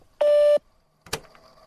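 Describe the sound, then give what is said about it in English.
A voicemail beep sounds as one steady mid-pitched tone lasting under half a second. After a short silence comes a brief, sharp knock. “You'll have 3 minutes at the tone.”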